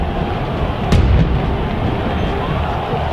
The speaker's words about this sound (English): And they fire off the artillery here after scores.